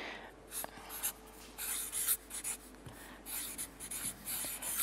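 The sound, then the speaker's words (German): Writing during a Bible lesson: quiet, dry scratching strokes come in many short bursts, with brief pauses between groups of strokes. “Und da wird aber dieses gleiche Wort Angelos, ich schreibe es euch hin,”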